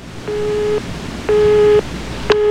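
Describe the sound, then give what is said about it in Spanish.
A phone tone after a dropped call: three steady, mid-pitched beeps of about half a second each, evenly spaced roughly a second apart over a hissy line. The last beep is cut off, and no one talks. “Se cayó la llamada. Sí, se cayó.”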